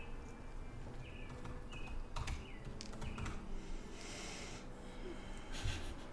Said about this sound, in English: I typed in creepy game music.